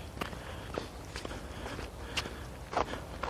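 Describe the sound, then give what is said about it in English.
Footsteps on a slushy sidewalk of half ice and half snow with liquid underneath, several fairly regular steps crunching and squelching at a walking pace, with a slightly louder pair near the end. “So yeah, I'm out. I'm walking. I'm talking. I'm moving.”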